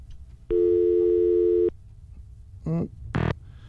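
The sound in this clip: Telephone line tone of an incoming call: one steady buzzing tone lasting just over a second, then two short warbling bursts in quick succession.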